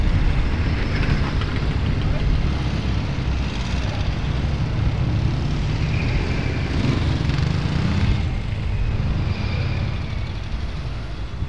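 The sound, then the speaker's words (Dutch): A group of motorcycles passes, one of them a Triumph, as a loud, steady engine roar that fills the whole stretch without separate passes standing out. “Nou, er komen weer wel een groep motoren. Ik had. Nou, dat was dus ook een Triumph.”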